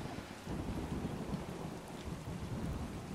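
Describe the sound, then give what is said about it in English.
Thunder in a fantasy roleplaying game scene: a low, continuous rumble with a rain-like hiss over it, fairly faint and steady, with no voices. “Thunder hits the Prima Vista”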